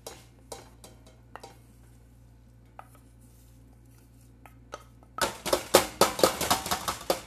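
Pot being set back on a stove: faint scattered clicks and taps at first, then a loud burst of metallic clattering and knocking in the final seconds.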